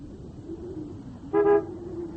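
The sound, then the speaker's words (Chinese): A sedan drives up to the front gate of a house and gives one short, clear honk of its horn. The toot rises above a steady low motor rumble that runs throughout. “在板垣家门口，板垣的轿车开了过来”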